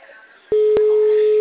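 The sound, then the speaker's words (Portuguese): Telephone line tone while placing a call: after a soft stretch of low background noise, a steady mid-pitched electronic tone begins with two clicks near its start and holds unbroken to the end. “Tô ligando. Chama, chama, chama.”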